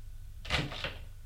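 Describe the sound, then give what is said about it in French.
A door on a small first-floor corridor being opened: one brief, soft clatter lasting about half a second, alone over a steady low background hum. “Ouvre la porte.”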